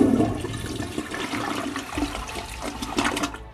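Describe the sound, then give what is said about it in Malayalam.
A toilet is flushed; the toilet is struggling to clear the bowl and its tank is slow to refill. Steady, rushing water churns continuously at moderate loudness, with no talking. “ഞാൻ flush ചെയ്തു”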